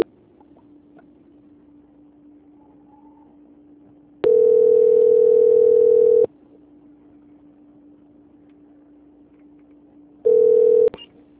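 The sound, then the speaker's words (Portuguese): Telephone call transfer tone: two steady mid-pitched beeps on the line, a long one lasting about two seconds and then a short one, over a faint constant line hum. “só mais um instante, que a ligação tá voltando. Transferência.”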